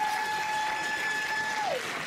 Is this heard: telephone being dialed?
no